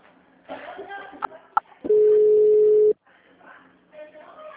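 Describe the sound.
A telephone ringing tone on a VoIP call: one steady mid-pitched tone lasting about a second, with muffled voices and background noise before and after it.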